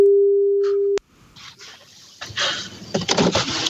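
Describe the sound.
A telephone ringing tone sounds while a call is being placed, one steady tone lasting about a second before it cuts off abruptly, followed by faint rustling and muffled line noise.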